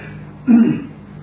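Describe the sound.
A man clears his throat in a single short, rough, low vocal burst that rises and then fades under a faint background hiss.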